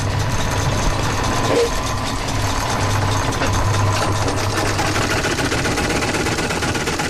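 An 80-year-old sewing machine built for stitching very thick material runs with a dense, steady mechanical whir and rattle. A low hum sits underneath, and the loudness stays even throughout.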